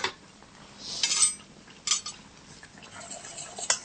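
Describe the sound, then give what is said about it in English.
A utensil stirs a sugar and soy milk paste for custard in a dish, giving faint scraping with a few light metallic clinks spread across the stretch. “So give that a bit of a stir until it's even before adding the last 1 3/4 cups of soy milk.”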